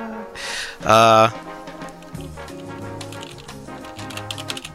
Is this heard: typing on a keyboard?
yes